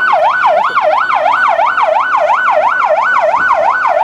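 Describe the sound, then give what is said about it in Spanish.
Ambulance sirens arriving at the scene of a deadly fire, wailing in a fast, regular rise-and-fall cycle that repeats many times, loud and unbroken. “Llegan más... más ambulancias acá al sector, llegan más ambulancias al sector.”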